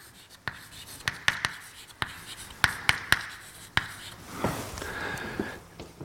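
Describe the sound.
Writing on a board during a lecture: many sharp taps and scratchy strokes in an irregular rhythm, fairly quiet against a low background hiss.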